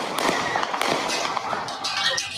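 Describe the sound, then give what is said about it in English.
Gunshots fired near parked cars, heard in a played recording: a rapid series of sharp cracks, some closely paired, cutting through a steady, noisy background. “Rittenhouse runs into a bunch of parked cars turns around and fires four shots at Rosenbaum. Someone else fires three shots.”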